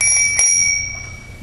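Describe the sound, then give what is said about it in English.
A bell rings once with a bright, sharp strike, then a high, clear sustained tone that slowly fades over about a second. “you know it's time to start classes when the bell rings. Sometimes even chapel when the bell rings.”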